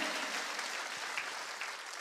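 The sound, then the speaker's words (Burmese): A church audience claps during a Sunday sermon, producing faint, even applause that continues throughout. “ဖခင်ရဲ့သားသမီးများလက်ခုပ်တီးလေးအဘဖခင်ကိုချီးမွမ်းကြရအောင်အာမင်”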